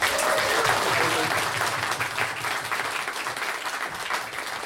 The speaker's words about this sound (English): Right, round of applause, welcome to the stage.